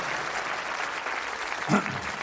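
Audience applause for a contestant called up on stage: dense, steady clapping fills the whole stretch at an even level, with a brief vocal shout rising over it near the end.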